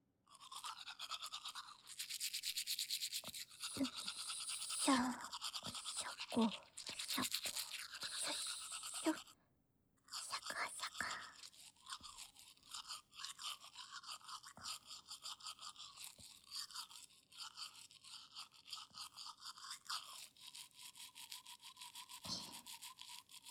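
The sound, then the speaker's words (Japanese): Teeth brushed with a toothbrush: continuous, fast bristly scrubbing and scratching, rising and falling in loudness, with a brief pause before the brushing resumes, and no talking. “反対側の歯も磨いていきましょう。”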